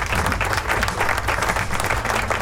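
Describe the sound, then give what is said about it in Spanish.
Audience applause in a rock music show studio: dense, steady clapping from many hands that holds an even loudness throughout, with no voices over it. “Aplauso.”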